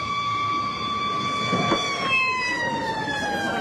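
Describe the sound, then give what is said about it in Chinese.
A police car siren wails as a steady, high, loud tone that drifts slightly lower in pitch, held over a continuous low rumble of background noise. “警察来了，警察来了。”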